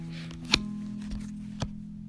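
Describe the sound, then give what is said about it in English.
Playing cards dropping out of a hand make a few soft, brief slaps, one stronger than the rest, over a steady low hum. “Now I will drop the first six cards out. So I hope you can hear it.”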